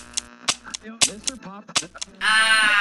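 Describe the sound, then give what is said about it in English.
A gunshot sound effect in an audio drama, a single harsh blast that bursts out at the end and rings on briefly, coming after a stretch of tense spoken dialogue. “Look, he's got the orb. What are you waiting for? Shoot this tentacled punk now.”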